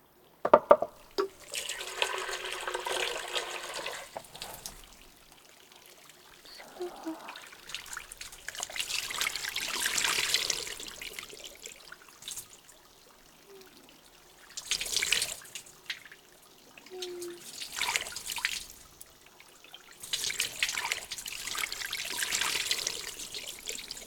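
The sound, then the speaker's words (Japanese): Water poured over someone's back to rinse it comes in several separate splashing, trickling pours with quieter gaps between them, soft and unhurried. “さーて、ではお背中流しますね。”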